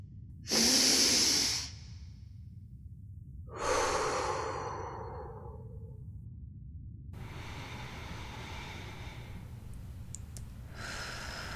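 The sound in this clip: Two loud, breathy breaths from someone being told to relax and breathe, the second trailing off more slowly, followed by a quiet, steady background hiss.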